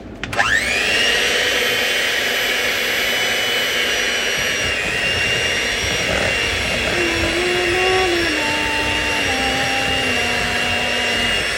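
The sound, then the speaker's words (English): An electric mixer on turbo mode whirs steadily through lumpy cake batter, a loud, continuous high-pitched drone whose tone shifts in small steps partway through. No one speaks over it. “We're mixing it. And it's very lumpy right now.”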